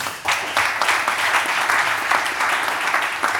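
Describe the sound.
Audience applause welcomes a historian guest onto the stage at an evening panel event. Dense, even clapping swells in after a brief quieter start and holds steady and loud to the end.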